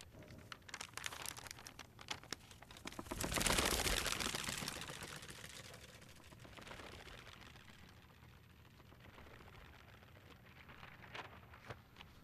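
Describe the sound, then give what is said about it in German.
Newspaper pages rustle as they are turned, folded, smoothed flat and shaken in a quiet reading room. The crisp paper crackling runs throughout, swelling into a louder, fuller flurry partway through before settling into softer handling. “Das Umblättern der Seiten. Das Falten. Das Glattstreichen, das ungeduldige Schütteln oder Schlagen, wenn ein Blatt nicht gleich gehorcht.”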